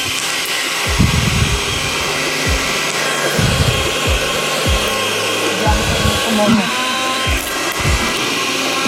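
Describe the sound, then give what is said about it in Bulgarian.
A kitchen blender processes an avocado mixture with a continuous loud whirring roar that holds steady throughout, while voices talk over the motor. “Да пускам блендър.”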